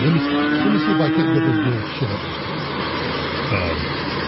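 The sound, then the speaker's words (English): Cattle mooing in Ireland: one long, low, drawn-out moo with a steady tone over constant background noise, then a shorter, fainter low call near the end. “65,000 of those people, of those things you hear behind my shoulder, slaughtered at a cost of 200 million euros annually.”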